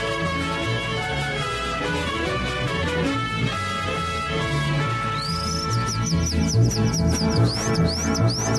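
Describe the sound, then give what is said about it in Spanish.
Calandra lark song: rapid, repeated high chirps and whistles that enter about midway and layer over continuous music. “Mira nomás, qué bonito canta la calandria, hombre.”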